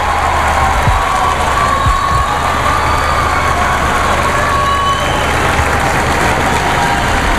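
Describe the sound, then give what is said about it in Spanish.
Street crowd noise outside a church's Nativity facade at a tower inauguration: a loud, steady wash of murmuring and cheering voices with an engine-like rumble underneath, continuing without a break. “Bien, pues está a punto de salir al exterior ahora mismo. Esa fachada del nacimiento. Ahí está, el sonido de la calle.”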